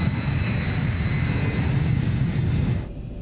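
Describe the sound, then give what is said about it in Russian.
An airplane flies above a thick layer of clouds, its engines a loud, steady rumble and whoosh throughout that eases slightly at the very end. “Самолет летит над плотным слоем облаков.”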